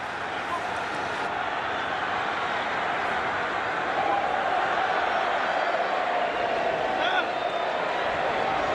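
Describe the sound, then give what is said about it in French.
Stadium crowd in Morbihan, Brittany, roaring through a Mexican wave as the match nears its end: a continuous, steady wash of cheering and shouting, with a voice talking over it. “Mais pas le public qui en redemande. On est reparti pour des tours de hola.”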